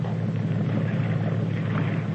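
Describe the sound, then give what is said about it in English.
A motorboat engine runs with a steady, low droning hum and a faint rushing noise, holding an even level throughout without any voices. “But what on earth is he going to do out here in this motorboat?”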